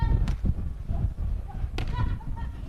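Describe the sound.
Two sharp slaps of a hand striking the ball during a beach volleyball serve, spaced over a couple of seconds, with a man's voice talking underneath.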